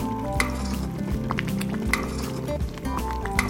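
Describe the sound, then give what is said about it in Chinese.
Ingredients for a red crab seafood congee cook together in a pot with water and rice, giving a continuous bubbling sizzle with scattered clinks and clatters throughout. “妈妈和小雨把食材倒在锅子里一起煮，”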